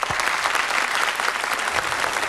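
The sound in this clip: Studio audience applause for a veteran singer on a holiday-special music entertainment TV program, a loud, steady roar of many hands clapping at once that holds an even level throughout.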